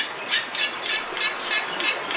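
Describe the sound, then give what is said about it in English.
Song of a Bali myna, a critically endangered starling, from an archival recording: a steady series of repeated high, harsh, buzzy notes at an even rhythm, with no other sounds standing out. “This example of a Bali Mina is from Cornell University's archive.”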